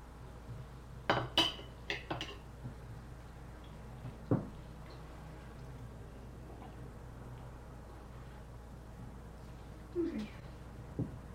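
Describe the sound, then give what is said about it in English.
Cutlery clinks faintly on a plate as egg is cut up into smaller pieces: a few quick metallic taps early on, a single tap later, and another couple near the end, with quiet in between. “Just let me cut it up a bit smaller. Okay, here's some more egg.”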